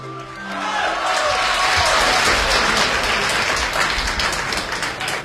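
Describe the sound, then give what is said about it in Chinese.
Audience applause at a traditional Chinese comic crosstalk performance: dense, steady clapping that swells in the first half-second and holds loud and even throughout, with no talk over it. “感谢您掌声鼓励”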